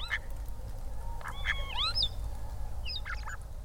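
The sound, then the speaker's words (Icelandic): A person imitates the call of a common crane, giving a few short honking, bugling cries with bending pitch. A steady low rumble runs underneath throughout. “Fyrst heyrum við hermt eftir grátrönu.”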